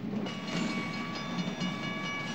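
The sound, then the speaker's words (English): A long freight train rumbles past a road crossing in a steady, faint wash of rolling noise and wheel clatter that holds even throughout. “The police car stops at the crossing as the train moves past.”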